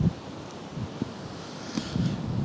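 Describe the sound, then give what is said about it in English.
Wind buffets the microphone outdoors in uneven gusts, a rough, rumbling low rush that swells and dips for a couple of seconds with no talk. “That's a fucking wind.”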